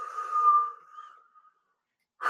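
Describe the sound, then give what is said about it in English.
A long, deep breath drawn slowly with a faint whistling edge, swelling and then tapering away into silence over about a second and a half. “Take a long, deep breath.”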